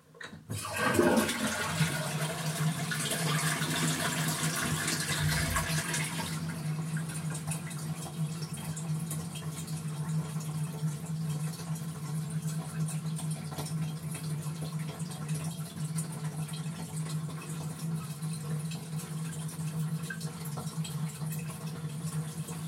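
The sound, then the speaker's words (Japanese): A toilet flushes with a loud rush of water, followed by a steady hissing flow as the tank refills until the end. “はい、じゃあトイレの水を流します。”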